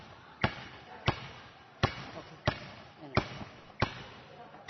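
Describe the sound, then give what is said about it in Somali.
A basketball bounces on the floor of an indoor basketball hall at a sports centre: seven sharp, evenly spaced thuds at a steady dribbling rhythm over faint background voices. “Halkani waa mid ka mid a hoolalka lagu ciyaaro kubadda kolayga ee xarunta Amaana.”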